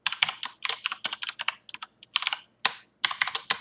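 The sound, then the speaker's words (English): Typing on a computer keyboard: many crisp key clicks in quick, irregular bursts, broken by brief pauses, with no talking over them. “Sorry, you guys gotta watch me type and be prepared for all my typos, right?”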